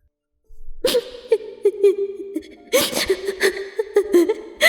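A woman sobs in choked, halting cries, with wavering high-pitched wails broken by sharp gasps, in two bursts separated by a brief pause after a silent start.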